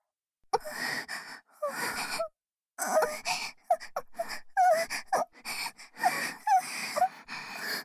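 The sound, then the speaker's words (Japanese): A woman moaning and gasping, played into the left and right ears: many short, breathy moans with wavering rising and falling pitch, separated by brief pauses, with no speech. “左右の耳元から、卑猥に喘ぐ声が聞こえてきますね。”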